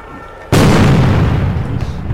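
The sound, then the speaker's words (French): A GM2L grenade explodes, used by riot police: one sudden, loud, sharp blast that breaks a low background, then a long, rumbling decay that slowly fades. “là ça va être ces nouvelles euh, grenades je pense. Les GM2L”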